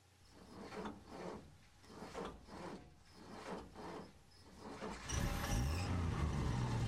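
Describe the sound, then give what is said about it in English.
A van engine starts after a few rhythmic rubbing or scraping sounds and then runs loudly and steadily, with a low hum that climbs in pitch as it revs. “Noise of the engine must have attracted them.”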